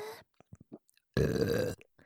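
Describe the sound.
A single loud, low burp lasting about half a second, preceded by a few faint, short mouth sounds and followed by quiet.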